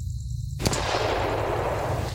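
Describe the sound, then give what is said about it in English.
A single gunshot rings out, one sharp, loud crack followed by a long, noisy tail that fills the rest of the moment, with no voices. “You're startled by the gunshot, but they do not flinch.”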